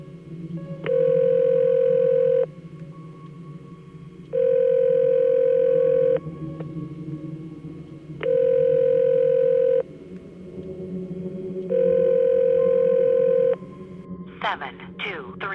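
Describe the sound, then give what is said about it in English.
Telephone ringing tones sound as a number is dialled: four long, steady electronic tones of equal length, evenly spaced with pauses between them, over a low background rumble, with a few brief chirps at the very end. “he began to dial the number from the book of matches.”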